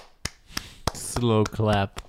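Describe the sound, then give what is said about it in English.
Three slow, evenly spaced hand claps, each a sharp dry smack, followed by a voice speaking. “slow clap. Wow. Wonderful. That's amazing work.”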